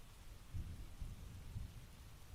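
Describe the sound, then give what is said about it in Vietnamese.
Rain falls with thunder, a steady faint hiss of rain under a few low, soft rumbles that swell and fade. No voices are present. “Bữa nay tụi mình quyết định để tiếng mưa làm cho nó mới mới nghe. Có cả tiếng sấm nữa các bạn.”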